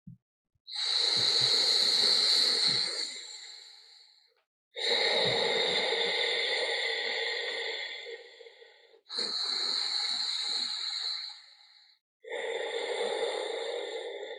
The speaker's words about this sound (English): So this Ujjayi breath is like a little bit of a light snore in the throat done consciously.